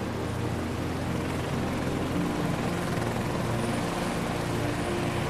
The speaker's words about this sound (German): Du steigst ein, setzt den Kopfhörer auf und schnallst dich an. Die Rotorblätter beginnen sich zu drehen.